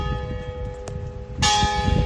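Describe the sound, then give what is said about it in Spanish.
A church bell of Santa María in Luanco, newly repaired, strikes loudly once and rings on with a sustained metallic tone over a low background hum. “las campanas de la iglesia de Santa María justo se habían estropeado. Bueno, hoy ya vuelven a sonar como habitualmente.”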